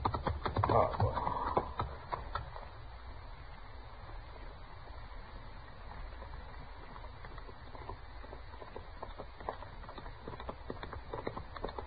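A horse gallops hard under a rider, its hoofbeats a rapid, continuous clip-clop. The hoofbeats are fairly faint throughout and slightly louder in the first couple of seconds.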